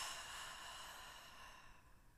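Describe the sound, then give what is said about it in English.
A long, deep exhale during a guided breathing exercise makes a soft, steady, airy hiss that fades slightly toward the end. It is very faint, with no talk. “So let's take a deep breath in. Long breath out.”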